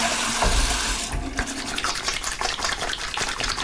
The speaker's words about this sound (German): Ja, Hände waschen.